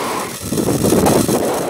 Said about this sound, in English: 3, 2, 1, 0. Ignition. Falcon 9 with the DART mission on the way for humanity's first ever planetary defense test mission.